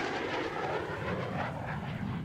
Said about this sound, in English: Today an airborne tribute came in the form of a typhoon flypast from the base the World War II bomber belonged to, RAF Lossiemouth.